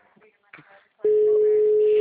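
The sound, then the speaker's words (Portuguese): Telephone tone after a dropped call. A steady, unbroken mid-pitched tone starts abruptly after brief faint talk and holds to the end. “acho que a ligação caiu.”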